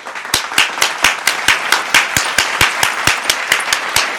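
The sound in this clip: Hand clapping rings out alone in a steady, fast rhythm, many sharp even claps in an unbroken beat with no voices over it.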